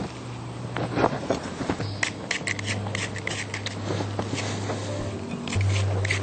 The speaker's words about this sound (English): Scrape the seeds out.